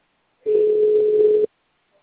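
One ringback tone on a telephone call, a single steady mid-pitched beep lasting about a second, with silence before and after.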